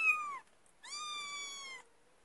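A cat meows twice, softly. The first meow is brief and dips slightly at the end, and the second is longer and steadier, with quiet pauses around both.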